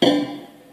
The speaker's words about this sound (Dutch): De laatste was die pan. Daar heb ik wel lang op gezeten. Maar daar heb ik uiteindelijk een plugin voor gevonden, de Tornado. En daar heb ik het geluid helemaal mee vervormd. Ik heb er als eerst een bit crusher aan toegevoegd. Toen klonk dat zo.